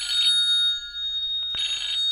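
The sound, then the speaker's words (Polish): A telephone rings with an incoming call: two bursts of bright, steady electronic ringing separated by a quiet gap of over a second, loud and with no voices. “Proszę mi wybaczyć, małżonka dzwoni”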